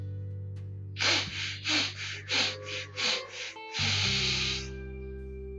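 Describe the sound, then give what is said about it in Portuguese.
Breathing exercise: a run of short, sharp sniffs through the nose, followed by one longer, steady inhale, all set against a soft sustained musical drone. “quatro respirações curtas pelo nariz e uma longa, e depois a gente solta o ar bem lentamente. E nós vamos fazer esse ciclo quatro vezes.”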